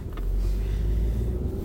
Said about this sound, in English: I'm driving home from seeing a movie